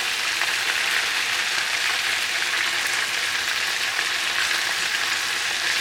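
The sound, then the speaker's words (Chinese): Food frying in hot oil over high heat, its fat rendering out as the pieces crisp. A dense, steady sizzle with fine crackling runs evenly throughout, loud and unbroken, with no voices. “那开了大火之后，它就比较容易会油爆，所以大家要小心。好，大家有没有听到那个声音越来越明显？”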